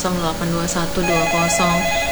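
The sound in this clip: A telephone rings with an incoming call to a radio phone-in program broadcasting in Ternate, Indonesia, a regular series of short, bright, trilling ring pulses repeating loudly in quick succession.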